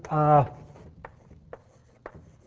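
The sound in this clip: Integrals are written on a board during a mathematics lecture: a brief spoken syllable, then three evenly spaced, sharp taps on the board.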